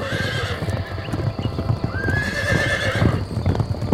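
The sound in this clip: Horses gallop off as riders set out, a dense, steady drumming of many hooves with a clear whinny rising above the clatter partway through.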